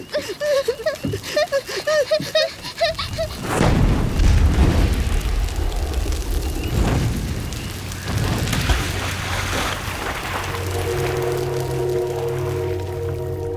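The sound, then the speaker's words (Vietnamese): A loud explosion of a river boat bursting into fire erupts after brief shouted voices, a heavy boom followed by a long, rumbling, roaring wash that slowly thins, with steady low tones emerging near the end. “Tiến kéo tay Linh, chưa kịp nhảy xuống sông thì một tiếng nổ vang lên”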